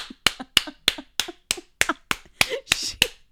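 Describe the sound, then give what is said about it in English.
One person clapping hands alone: eleven sharp, separate claps at a steady, even pace, each a crisp crack with a short tail and silence between. “Clapping is so weird when you're alone.”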